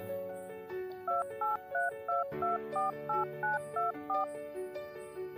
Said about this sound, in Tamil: உன்னோட ஃபோனை ஒரு நிமிஷம் எடுக்கிறியா நான் சொல்கிற நம்பரை மட்டும் கொஞ்சம் டைல் பண்ண